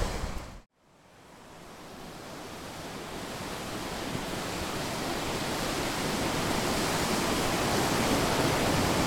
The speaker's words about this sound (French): Donc là vous avez la passe à poissons, en fait les poissons arrivent par le bas comme ça et après ils sautent de chute en chute